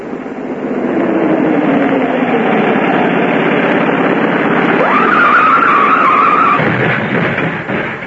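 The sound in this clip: A car engine roaring and its tires skidding through a turn on a hill: a loud, continuous rushing roar, with a high whine that rises midway, holds briefly and then cuts off before the noise eases.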